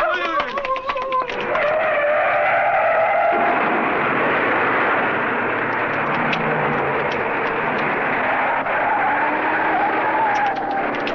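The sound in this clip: A car driving up in a 1936 slapstick comedy film: a loud, continuous engine rumble and road noise that holds steady for around eleven seconds with little change in level.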